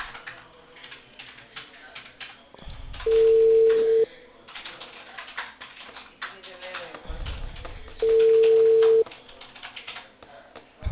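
Busy tone from a cut-off telephone call: two loud, steady, mid-pitched tone bursts, each lasting about a second and spaced several seconds apart, over a murky background of low noise.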